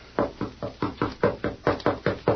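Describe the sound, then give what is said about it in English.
Knocking on a door, many rapid, evenly spaced raps in a steady rhythm, each a firm, dull thump of even loudness. “No. That is Miss Abby's door, sir. I'll knock.”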